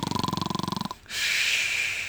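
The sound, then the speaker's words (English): A toad snores: a rapid, rattling series of croaky pulses lasts just under a second, then a short silence, then a steady breathy hiss that fades slightly at the end. “He closed his eyes. A minute later, he began to snore.”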